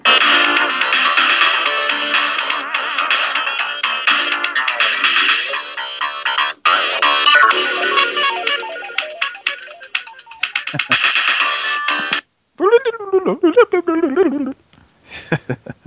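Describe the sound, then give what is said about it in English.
Random electronic beeping tones from a Konami Castlevania game on the X68000 computer: a dense run of bright synthetic bleeps with rapid pitch changes, ending in short wavering pitch sweeps with brief gaps. “Street Hawk in a Castlevania game. Street Hawk. It's a bunch of random beeping tones.”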